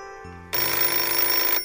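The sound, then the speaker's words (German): A telephone rings at breakfast time with a bright, steady electronic ringtone that sustains evenly after a softer, lower tone at the start. “Bis am nächsten Morgen wieder das Telefon klingelte.”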